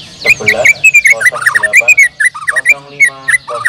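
A white-rumped shama sings a loud, rapid run of clear whistles, chirps and trills. The notes jump in pitch and follow one another with hardly a pause.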